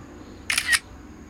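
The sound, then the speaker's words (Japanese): A camera shutter clicking as a photo is taken during a clay toothpaste-making session: a short, crisp two-part click, fairly loud over a low, steady background hum. “ちょっと今写真撮るわね”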